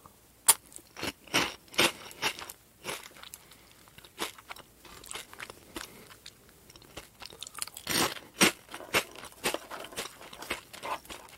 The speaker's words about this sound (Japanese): ポテロングうまいな